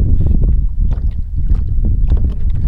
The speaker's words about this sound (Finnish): ilma on kaunis ja hivenen tuulinen näin elokuun viimeisinä päivinä.